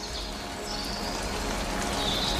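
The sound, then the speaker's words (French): Raindrops fall among vegetation in a steady, dense patter over a continuous soft hiss, growing slightly louder toward the end, with no voices. “les gouttelettes de pluie, des prises de son monophoniques et stéréophoniques.”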